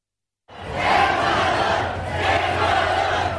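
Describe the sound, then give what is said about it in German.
A football stadium crowd roars after the Germany vs Ecuador match, starting abruptly after a brief silence, a loud mass of cheering and chanting voices that dips slightly and swells again. “Die Stimmung war sehr gut, wie ihr gerade hört.”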